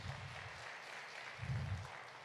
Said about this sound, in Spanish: Ustedes y los del primer servicio, denle un aplauso a Dios por la vida de ustedes